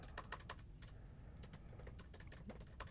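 Fingers type on a computer keyboard in quick, uneven clusters of light clicks, quiet and without voices.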